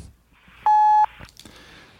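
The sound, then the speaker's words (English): A censorship bleep covers a word: one loud, steady, high-pitched electronic tone lasts a little under half a second, with faint low sounds before and after it. “Well, I'm bleeping that.”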